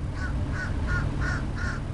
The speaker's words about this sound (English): The sky directly over it swirls with flocks of seagulls, pigeons, and soaring black buzzards.